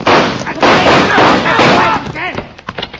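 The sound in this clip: Loud gunfire in a Western shootout scene: heavy, overlapping blasts fill the first two seconds, and a shouting voice follows.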